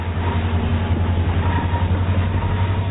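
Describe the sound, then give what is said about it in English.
An EMD SD-60 freight train runs east over the Sierra Nevada mountains, making a continuous heavy rumble. A deep engine hum sits beneath rolling wheel noise, steady and fairly loud, with no voices. “Then climb aboard an EMD SD-60 freight heading east over the mighty Sierra Nevada.”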